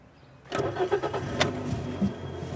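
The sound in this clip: A car engine sputters during a driving lesson: after a quiet start it bursts in abruptly, then runs roughly and unevenly with several lumpy surges. No speech.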